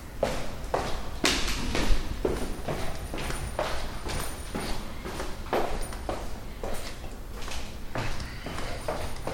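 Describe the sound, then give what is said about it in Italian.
Binaural footsteps leave a studio and head down the stairs, many steady, evenly spaced treads knocking in a regular walking rhythm, moderately loud and alone without talk. “Sto uscendo dallo studio, scendo per le scale.”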